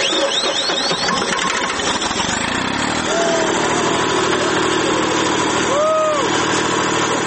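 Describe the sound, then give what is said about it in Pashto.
A generator engine running at a steady mid-pitched hum to power floodlights at a local sports ground where a crowd waits for a game, with people talking over it. “جنراتور چلانه سو، میدان رڼا سو”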